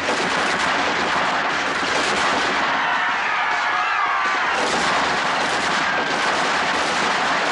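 Successive volleys of gunfire as soldiers fire on a packed crowd, forming a dense, continuous, loud crackling barrage with no clear gaps between shots.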